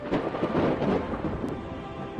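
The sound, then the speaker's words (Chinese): Rolling thunder rumbles over the steady hiss of heavy rain. The wash of sound is dense and continuous throughout, and no voices are heard. “天上响起了一阵雷，又下雨了。伴着滚滚的雷声和哗哗的雨声，”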